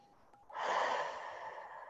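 A deep breath out through the mouth during a guided breathing exercise: after a brief quiet moment, one long, airy, steady exhale that carries on to the end.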